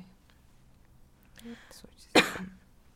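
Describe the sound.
A person coughs once, a sharp and loud burst near the end, after a stretch of soft murmured speech.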